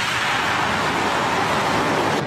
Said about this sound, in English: Deluge is activated. 10, 9, 8, 7, 6, 5, 4, 3, 2, 1, 0. And we have liftoff.